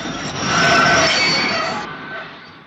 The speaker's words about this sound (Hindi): Train पर डाकुओं के हमले, उनसे मुकाबला करने और ट्रेन को बचा ले जाने वाला सीन बंबई के पास पनवेल उरण के ट्रैक पर फिल्माया गया था।